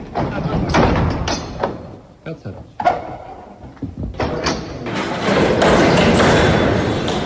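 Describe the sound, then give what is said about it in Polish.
Heavy church gates being shut during the Easter Triduum: scraping, sliding noises and a loud thud, then a sustained rumble, with voices in the background. “Przyznam szczerze, że ten huk zamykanych wrót, posłuchajmy.”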